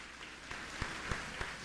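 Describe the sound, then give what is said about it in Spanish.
A church audience applauds softly. The clapping is faint and even, with a few sharper individual claps standing out from the hush. “Un aplauso grande.”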